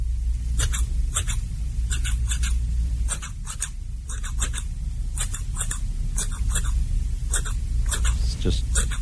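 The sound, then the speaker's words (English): Scissors snip through hair in a virtual barber haircut recording: many crisp, bright snips in quick clusters with short pauses between, over a steady low hum. “So this is the actual video or the audio that you listen to. So let's all experience the virtual barber.”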